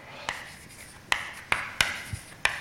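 Chalk or marker writing on a board during a mathematics lecture: a few sharp tapping and scraping strokes at irregular intervals, fairly faint, with no talk.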